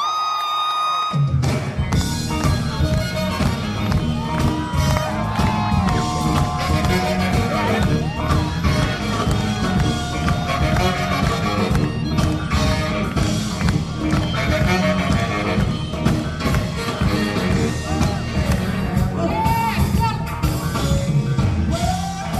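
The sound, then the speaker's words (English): Crowd cheering fills the March for Science rally on Earth Day 2017, a dense, loud, sustained roar of many voices that holds steady throughout. “What you just heard in the introduction were sounds from the March for Science”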